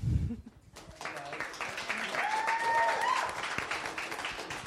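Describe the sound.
An audience applauds to welcome two guests: a dense burst of clapping that builds and holds for several seconds, with a brief whistle cutting through near the middle.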